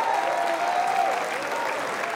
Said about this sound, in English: Clap your hands, all ye people.